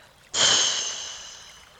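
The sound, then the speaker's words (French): A single breathy rush of air during a guided chakra meditation: a soft, airy hiss begins abruptly and then fades slowly away, with no talk over it. “Inspirez, soufflez.”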